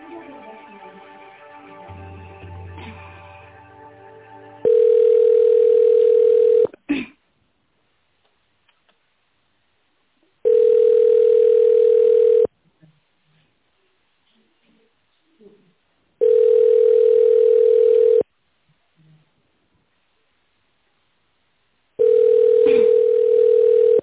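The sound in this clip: During a call transfer, a telephone line gives four long, steady beeps of about two seconds each, separated by near-silent gaps, after faint voices and line noise at the start.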